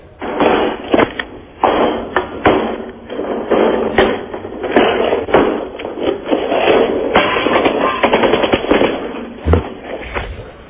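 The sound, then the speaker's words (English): Gunfire sound effect played from a CD, a loud, dense rattle of many rapid shots and crackling bursts running almost continuously for several seconds. “The sound effect CD already in? I've only got about 10 bullets in.”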